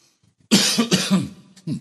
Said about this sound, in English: Should have done my coughing before I started.